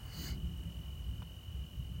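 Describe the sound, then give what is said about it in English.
Crickets chirp outdoors in a steady, high-pitched trill that runs unbroken and fairly faint through the whole moment, with no voices. “Just stand and sort of listen to the crickets or listen to the subtleties of the leaves moving in the calm breeze.”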